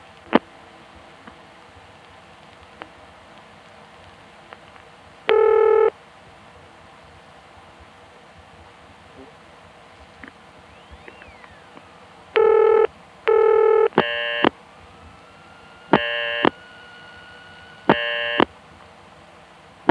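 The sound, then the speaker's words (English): Buzzy telephone ringing on a line to a supervision test number: one single ring, then a double ring, followed by a few more short rings, with faint clicks on the otherwise quiet line between them. “we heard a single ring followed by a double ring”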